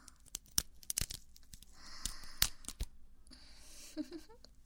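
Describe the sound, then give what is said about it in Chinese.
Silk stockings are torn apart by hand in a string of sharp, quick ripping bursts with crinkly crackles between them, quiet overall. “撕开它。撕丝袜如果能缓解你的压力的话，也是一个合适的办法。”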